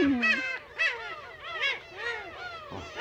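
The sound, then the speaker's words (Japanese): Black-tailed gulls call repeatedly in overlapping, nasal, mewing cries that bend in pitch, somewhat cat-like. Many calls follow one another in uneven bursts at moderate loudness. “これはもう猫は猫でも海猫ってのはお分かりでしょ？”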